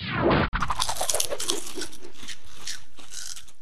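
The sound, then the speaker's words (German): Dense, brittle crunching of potato chips being eaten, loud crackles at the start, a brief break, then steady chewing crunches that continue and fade slightly, with no voices. “Die beiden Mädchen haben so viel Chips gegessen, dass sie richtig satt waren.”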